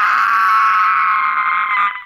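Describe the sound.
A giant bird's furious screech: one loud, harsh, sustained cry lasting about two seconds, holding steady before tapering off at the end.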